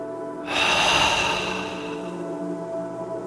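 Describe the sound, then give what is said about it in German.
A deep breath through the mouth: one long, airy rush that starts abruptly and slowly fades away, heard alone over soft, steady background music tones. “Also tief einatmen. Oben kurz halten und alles durch den Mund aus.”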